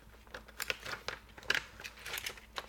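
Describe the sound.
Faint crinkling and light rustling as a thin plastic membrane foil is slid into a keyboard during reassembly, a quick, irregular scatter of small crackles with no voices.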